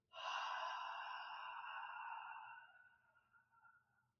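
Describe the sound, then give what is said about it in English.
A deep "ha" breath exhaled with the jaw dropped and the throat slightly constricted, a breathy, hissing rush that starts strongly and then tapers off over about four seconds. “when you breathe out, you drop your jaw and you constrict the throat a little bit to make the sound.”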